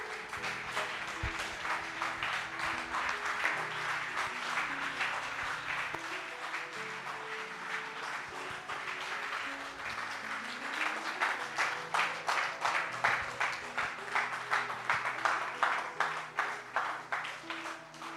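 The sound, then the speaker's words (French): A church audience applauds God during a service with sustained clapping that settles into a steady, rhythmic beat in its later half, ongoing and fairly loud. “Disons merci à Dieu, acclame Dieu, acclame Dieu, acclame Dieu, acclame Dieu.”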